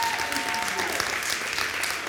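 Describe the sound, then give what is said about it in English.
Audience clapping in appreciation, a steady, dense wash of applause that holds at an even level for the whole two seconds. “Can we give everybody up here a hand, a clap of appreciation?”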